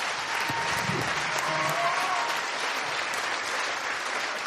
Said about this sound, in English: So please give a big hand.